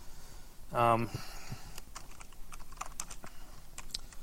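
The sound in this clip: Typing on a computer keyboard, many quick, irregular keystroke clicks at moderate volume, following a short stretch of speech near the start.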